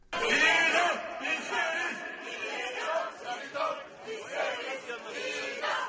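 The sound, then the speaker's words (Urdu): Protesters in Istanbul chant in unison for the death penalty as soldiers accused of a July coup attempt face court, a loud, rhythmic stream of massed voices rising and falling in repeated phrases. “مظاہرین نعرے لگا رہے ہیں کہ ہم موت کی سزا چاہتے ہیں۔”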